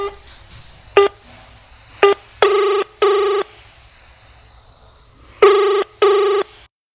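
A telephone being dialed and then ringing: a couple of short tones are followed by two double-burst rings, each pair of bright electronic pulses repeating after a pause, clear and alone.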